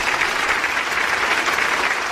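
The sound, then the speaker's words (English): Audience applause: dense, even clapping holds at a steady level from start to finish, with no talk over it. “That deserves a round of applause.”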